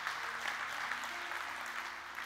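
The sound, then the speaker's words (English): A church audience claps in praise at the end of a sermon, a soft, continuous wash of many hands that stays fairly faint and steady from start to finish. “Let's give the Lord a good hand clap today.”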